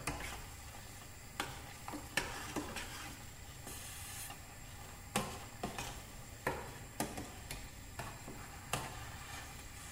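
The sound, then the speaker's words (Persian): Eggs fry in a pan on top of hot potatoes, a faint, steady sizzle broken by many small ticks and pops at irregular intervals. “حرارت در حقیقت سیب زمینی ها هم بالاست، باعث میشه که تخم مرغ سریع پخته بشن. تو این فاصله که تخم مرغ داره پخته میشه”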